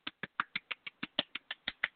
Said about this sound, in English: Golf clap.